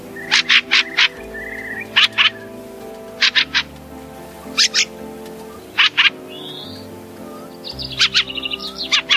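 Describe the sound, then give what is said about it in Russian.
A fieldfare, a large thrush, gives harsh chattering calls in short clusters of two or three, ending in a quicker run. Fainter whistled bird notes sound between them. “А это голос рябинника.”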